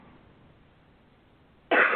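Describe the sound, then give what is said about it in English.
A single sharp cough from someone with seasonal allergies bursts out loud near the end, after a stretch of faint background hiss. “Excuse me, everyone. This is what we call the yellow season. It's also known as allergy season. So I'm going to be hitting my cough button frequently here.”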